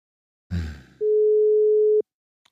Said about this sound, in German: Jetzt geht er nicht ran.